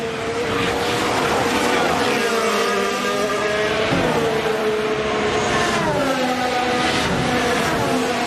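Racing cars roaring around a track during the final lap of a race, a sustained loud engine whine whose pitch repeatedly shifts and bends as the cars pass.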